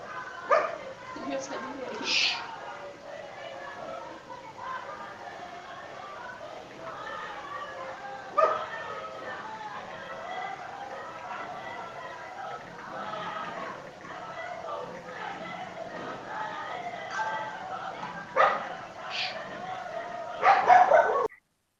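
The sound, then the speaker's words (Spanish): A dog barks in a few sharp bursts, mixed with yips and whimpers, under steady, overlapping talk from several voices; the sound is thin and muffled. “Y encima se te pone a ladrar el perro ahí.”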